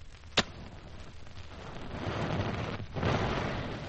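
A match strikes with one sharp crack, then gunpowder emptied from a charge onto a tray burns as a broad, rushing hiss that swells and stays loud to the end.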